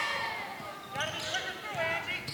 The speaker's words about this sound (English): Left-handed dribble, going to come all the way out top.